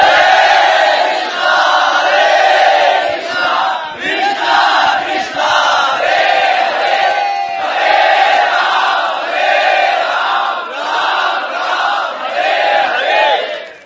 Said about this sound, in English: Let us, in honor of Uddhava's sincere, intense longing, let us chant the holy name.